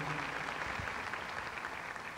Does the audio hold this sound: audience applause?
yes